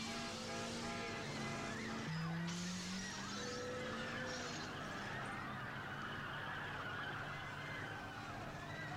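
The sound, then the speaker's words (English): Car brakes screech in a full peel over a dense, steady roar of engine noise, with squealing tones sliding through the first few seconds before the din settles. “Can't tell if that's pedestrian screaming or just the brakes in a fucking full peel.”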